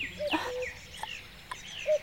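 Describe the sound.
Bird calls come in brief whistled notes and short chirps, a few scattered across the moment, clear and alone, the call attributed to a cuckoo.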